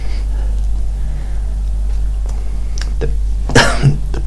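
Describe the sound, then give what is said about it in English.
A person coughs in a short, harsh burst near the end, loud against a steady low hum that runs under the whole clip. “He started coughing”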